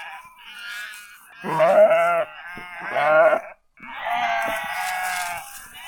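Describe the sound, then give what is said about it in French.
A lamb bleats on a farm, giving several loud, quavering, nasal calls with short pauses between them and no other noise around. “il y a encore mon agneau là-haut. Allez, on va le chercher.”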